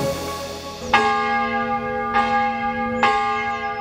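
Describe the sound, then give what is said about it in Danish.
Church bells of Durup Church ringing at night during a two-hour bout of unexplained ringing: loud resonant strikes, about three fresh hits with long humming tones sustained between them. “Cirka sådan her lød det i nat i landsbyen Durup, nord for Nørreager. Klokken 3 blev Nordjyllands Politi ringet op af en træt borger, som kunne fortælle, at Durup Kirkes klokker havde ringet i 2 timer.”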